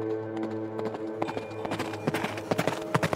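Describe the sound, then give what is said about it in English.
Galloping horse hooves as a sound effect: faint, rapid, irregular thuds that grow denser and sharper toward the end, over a sustained low tone. “He raced on horseback toward Dryden to Brookfield Farm, searching for his mother.”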